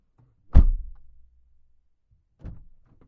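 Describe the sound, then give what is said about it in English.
A car door slams shut, heard from inside the car: one loud, deep thud with a short low rumble as it fades, then a quieter second knock about two seconds later. “Car door slam, interior.”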